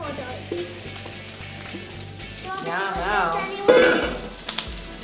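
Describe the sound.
Broccoli and cauliflower sizzle in a pan with a steady hiss. A few stirring knocks and scrapes of a utensil sound against the pan, and a voice speaks briefly.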